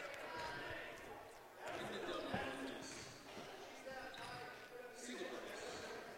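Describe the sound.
A basketball bounces at the free throw line during the fourth quarter of a girls' game. The bounces are faint and hard to pick out under steady commentator speech and busy crowd noise.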